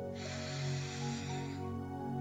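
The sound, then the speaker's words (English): A single long, deep breath taken during a guided deep-breathing exercise: a soft, airy rush that holds steady for about a second and a half before fading, over a low steady tonal hum. “A deep breath in and let it out.”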